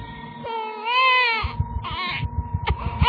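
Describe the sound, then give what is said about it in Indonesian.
A baby nephew cries and wails unusually hard, with loud, high, wavering cries that rise and fall in a few drawn-out bursts. Short sobbing catches break up the crying between the bursts. “keponakanku menangis meraung-raung tidak seperti biasanya.”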